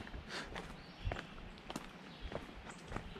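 Soft footsteps of a person walking: faint, irregular steps that fall at a relaxed pace, with no voices.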